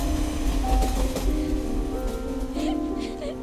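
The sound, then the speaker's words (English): A train rumbles past overhead near a city flat at night, a heavy low drone with faint squealing metallic tones and a steady wash of noise that holds through the whole stretch. “A train passes overhead.”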